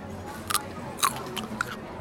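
Crisp crunching from biting into a raw French breakfast radish gives three short, sharp crunches spaced about half a second apart. They are faint and quiet, with no talking.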